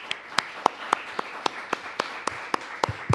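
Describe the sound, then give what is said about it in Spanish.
Applause as sharp hand claps sounds in a steady, evenly spaced rhythm of about four per second, crisp and moderately loud over a quiet background. “Pues démosle un fuerte aplauso a Francisco Sandoval de Animal Político.”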